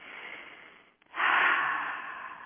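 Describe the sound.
Deep breaths taken during a breathing exercise: one long airy breath, a short pause, then a stronger, louder breath that slowly fades. The breaths are heard alone, without talk.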